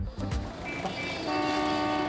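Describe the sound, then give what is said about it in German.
Busy bus station ambience in Accra, Ghana, where long-distance coaches depart: a steady wash of vehicle and crowd noise, with a sustained hooting horn-like tone emerging in the second half. “Der Busbahnhof in Accra. Von hier aus fahren Überlandbusse in alle Richtungen.”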